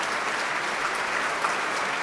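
Audience applause after a performance of Tchaikovsky's Violin Concerto in D major, Op. 35: dense, steady clapping that holds an even loudness throughout, with no talk over it.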